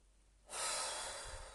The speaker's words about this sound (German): Und wirklich tief in den Bauch einatmen. Richtig, richtig tief.